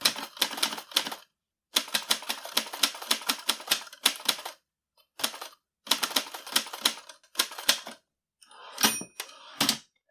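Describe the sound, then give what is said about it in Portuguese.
Typewriter keys clatter in quick, loud bursts of sharp strikes, broken by short silent pauses between runs of typing. No voices. “no Recordar e Viver, hoje vamos falar um pouco sobre o universo das máquinas de escrever”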